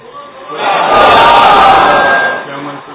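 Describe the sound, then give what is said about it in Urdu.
Crowd chanting a religious slogan at a religious gathering: massed voices swell into a loud, sustained roar through the middle, then fade back down toward the end. “میں بھی نعرہ لگا لوں انشاءاللہ. تیاری ہے”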